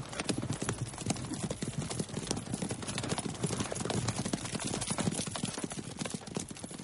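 Several horses gallop through a forest as a rider and his escort pass by. Their hoofbeats make a dense, fast clatter of many strikes that keeps a steady loudness for the whole stretch.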